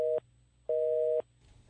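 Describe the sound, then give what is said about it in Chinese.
Telephone tone heard when calling a phone that has been switched off: evenly spaced, steady mid-pitched beeps, about three in all, separated by short quiet gaps over faint background hiss. “佢熄咗电话喎”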